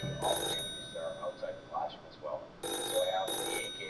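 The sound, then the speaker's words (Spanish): A telephone rings in a house's living room in the evening, sounding in short bright bursts: one ring, a pause with softer sounds, then two more rings close together. “De pronto, sonó el teléfono.”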